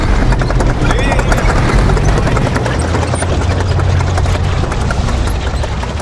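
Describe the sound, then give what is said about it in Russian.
A heavy KV-2 tank drives along a road between houses at night, followed by several T-34 tanks: a loud, continuous deep engine rumble with dense rapid clattering layered over it, unbroken throughout. “По дороге между домами едет тяжелый танк КВ-2. За ним несколько Т-34.”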